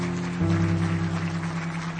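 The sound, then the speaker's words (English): Congregation clapping during a church service, a steady wash of applause over a sustained low musical chord that shifts once early on and then holds. “Can you give the Lord a good clap offering today? Would you do that?”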